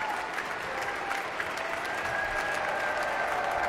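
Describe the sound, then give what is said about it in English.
Concert applause in the Klein Music Tent as the audience, soloist and conductor applaud the Aspen Festival Orchestra, a steady, dense wash of clapping that stays even throughout. “each one turns to the orchestra and applauds them.”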